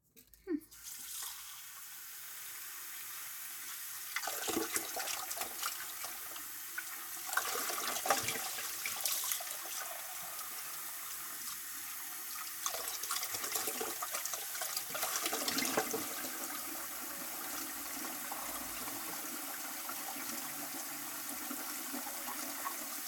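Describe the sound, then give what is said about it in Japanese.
Running tap water pours steadily into a sink while a bowl is washed, a continuous rushing hiss with several brief surges of splashing as the bowl shifts under the stream. “でもこのボウルちょっと汚れてるわね。洗った方がいいんじゃない？”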